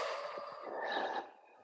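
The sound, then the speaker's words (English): A deep breath drawn in through the nose and then let out during a guided breathing exercise. It is a soft, airy rush of breath that changes tone partway through and then fades, heard alone with no talking. “So you're going to take a deep breath in through your nose, hold it for 2-3 seconds, keep it there, breathe out,”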